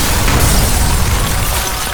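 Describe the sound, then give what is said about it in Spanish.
A chemical bomb exploding, heard as a loud, dense, sustained roar with no sharp separate bangs. It stays forceful throughout and eases off only slightly toward the end. “Ambas bombas estallan en una potentísima nube de gases tóxicos, humo, presión y fuego”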